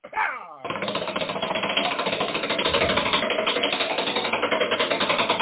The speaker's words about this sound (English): If you would step up kindly to the dais and give the wheel a spin.